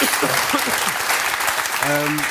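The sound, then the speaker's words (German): Audience applause greeting a seated guest on a German talk show, a dense, steady wash of clapping that carries through the whole moment while voices talk over it. “So, nochmal Applaus.”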